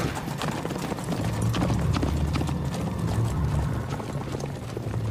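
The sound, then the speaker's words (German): Hooves of a horse galloping away, a fast run of many clip-clop beats at a steady, moderate loudness with no talking over them. “Er warf den Stutzen und das Messer von sich und sprang auf sein Pferd.”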